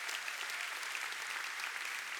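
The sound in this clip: Audience applause welcomes a speaker at a church service, a steady, even patter of many hands clapping, faint and unbroken throughout.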